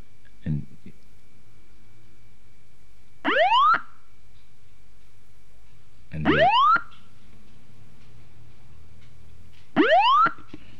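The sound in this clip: Rising chirp sonification of two neutron stars spiralling together: three bright upward-sweeping tones, evenly spaced, each a quick ascending glide heard alone against a quiet background.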